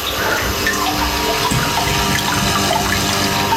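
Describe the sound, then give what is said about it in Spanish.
Water trickles and splashes steadily from an indoor fountain with a Buddha statue, an even, continuous wash of water with no talking. “¿Escucháis la fuente?”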